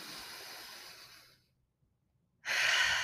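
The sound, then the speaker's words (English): A deep breath drawn in and let out during a guided one-minute meditation: a long, airy inhale fades into a brief silence, then a louder, hissing exhale follows. “One more time, deep breath in,”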